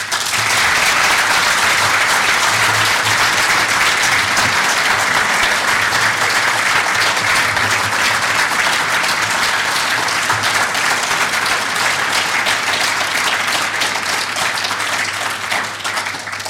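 Loud, sustained audience applause welcoming Eamon Gilmore, TD, on stage: dense, even clapping from a large crowd that holds steady for the whole stretch and thins slightly at the very end.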